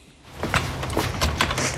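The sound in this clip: A locked door is opened into a basement, with soft handling, rattling and scraping noises that stay fairly faint and continuous.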